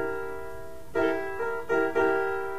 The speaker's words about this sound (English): If I flat the B note, which is the seventh note, if I flat it, I've got a chord that sounds like this.